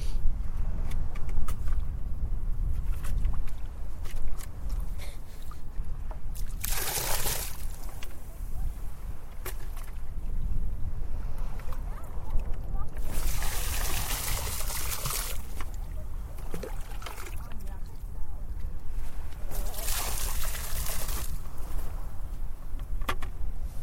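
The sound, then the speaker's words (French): Water splashing and pouring as a bucket is rinsed clean before plankton is put in it. A few loud, short bursts stand out over steady low rumbling background noise. “Je vais rincer le seau 3 fois pour qu'il soit propre avant de mettre le plancton dedans.”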